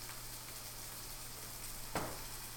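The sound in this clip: Bacon frying in a pan gives a faint, steady sizzling hiss throughout, broken by one brief, slightly louder crackle near the end.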